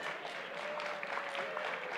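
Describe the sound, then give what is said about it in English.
Faint, steady applause from an audience during a Bible teaching, a soft continuous patter of many hands that holds at an even level throughout without any speech over it. “I have no idea why you're applauding that, but okay.”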